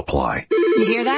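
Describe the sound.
A telephone on a legacy business phone system rings with a loud, warbling electronic trill. It follows a short burst of speech and holds steady to the end.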